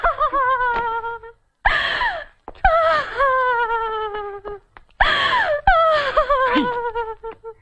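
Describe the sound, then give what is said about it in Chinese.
A woman cries and wails during a heated family quarrel at home, with long, high, wavering sobs in several bursts broken by short gasps and pauses. “你看你在这儿有哭有闹的，叫外人听见了多不好。”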